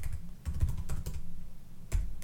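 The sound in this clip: Typing on a computer keyboard: many quick, irregular keystrokes clatter in uneven bursts over a low background hum, with a few louder key hits near the end and no talking.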